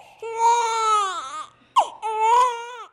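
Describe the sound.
A one-day-old newborn cries at a health facility in Samburu County, Kenya: loud, high, wavering wails in two long bursts broken by a brief sharp catch of breath.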